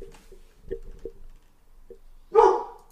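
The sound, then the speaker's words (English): A single loud, harsh bark bursts out near the end, following a quieter stretch of faint, short sounds. A woman is imitating a dog barking. “stop barking! She's just really good at it.”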